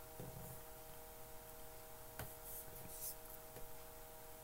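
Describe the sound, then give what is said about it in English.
Handwriting scratches faintly as a Bible verse is written down, a soft pen-on-paper rasp broken by a few light ticks over a low, steady hiss and hum. “I'm going to write down Hebrews 8:10.”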